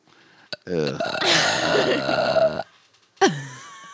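A loud, long, rumbling burp lasting about two seconds. A brief click comes just before it, and a short vocal exclamation follows after a pause.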